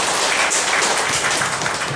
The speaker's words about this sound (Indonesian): Yang boleh aplaus untuk pembicara kita.